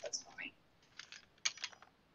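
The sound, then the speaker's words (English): Small metallic clicks and faint rattles from handling a small lockpick kit: a few soft, sharp taps and fumbling scrapes, quiet throughout. “It's a little lockpick kit. This guy's credit card. I don't use this though. This takes me too long. I don't even know how to close this thing now.”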